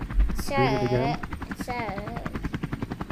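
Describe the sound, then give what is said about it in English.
A helicopter in a video game gives a steady, rhythmic rotor chop that grows more evenly pulsed toward the end, with voices calling out over it at the start. “All right, let's get in the helicopter and get out of here.”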